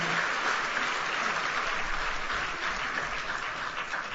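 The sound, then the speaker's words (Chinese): Audience applause welcoming a speaker at a Christian sermon gathering: a dense, steady wash of many hands clapping, holding an even level for about four seconds with no voices over it. “大家鼓掌欢迎 Ivan Christian Piano 上来。”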